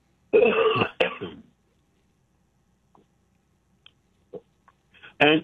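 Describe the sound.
A person clears their throat and coughs in a harsh burst about a second long. A few faint clicks follow in near silence, then another short, rough throat-clearing sound comes at the end.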